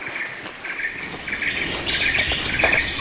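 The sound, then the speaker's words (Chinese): Different birds call in a tropical rainforest, with many overlapping chirps and tweets over a steady high insect drone. The sound stays continuous and moderately loud throughout, with no talk. “如果你安静下来，你会听到很多的声音，不同的鸟的叫声，还有这个风吹过有时候树木的这个声音。”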